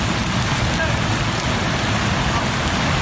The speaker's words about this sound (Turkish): Ve Nevşehir, Ürgüp'te etkili olan yağışın ardından sel meydana geldi.